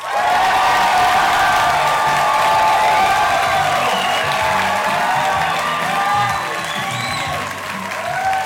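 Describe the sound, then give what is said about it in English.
Audience cheering and applause at a live comedy show at Largo: a loud, dense roar of clapping, cheers and scattered whoops that holds steady throughout and dips slightly near the end. “Oh, they're stomping. They're stomping.”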